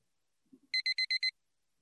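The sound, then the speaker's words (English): An electronic alarm going off as a time warning: five short, high-pitched beeps in quick, evenly spaced succession, clear against an otherwise quiet background. “What's that alarm? Is that 5 minutes? I have 5 minutes left?”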